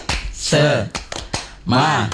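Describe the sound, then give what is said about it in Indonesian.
Tepuk semangat, a rhythmic Scout clapping chant: a few sharp claps alternate with voices chanting in unison, loud and punchy. “Ini tepuk apa nih sih? Semangat.”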